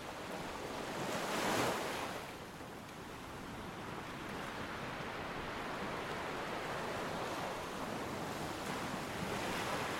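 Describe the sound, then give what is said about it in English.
Sea waves crashing against a seawall of huge lime boulders: a broad, continuous roar of surf and wind, with one louder surging crash early on before it settles into a steady wash. “Huge great lime boulders make up the seawall exploding and refracting the speeding sea upon impact.”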